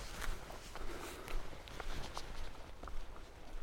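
Footsteps walk outdoors at midnight, a faint and steady stream of many soft steps over a low background hiss.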